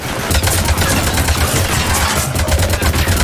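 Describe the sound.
Video game gunfire rattles in a loud, dense, unbroken barrage of rapid automatic shots, steady throughout with a heavy low thump under the crackle.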